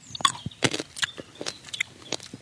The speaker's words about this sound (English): Okay, we're tasting the grape here. This is the hybrid.